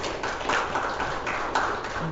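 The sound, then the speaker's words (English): A small group of people in a room applauds to honor rescuing officers, producing a modest, uneven patter of clapping at moderate volume. “there's just a few of us in this room, but I'm up for giving those folks an applause”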